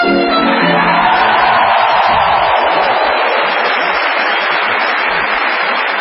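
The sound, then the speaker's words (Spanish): Sustained applause and cheering from an audience in a concert hall in Argentina, a dense, steady wash of clapping that holds at an even loudness for the whole stretch. “Ese es nuestro amigo Alejandro Dolina, aplaudido, ovacionado en uno de los salones más lindos que hay en Argentina”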